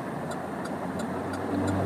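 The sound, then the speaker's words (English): Steady low road rumble while driving through heavy Friday traffic, with five soft, evenly spaced ticks over the continuous hum. “Sorry, I'm just paying attention to this crazy traffic.”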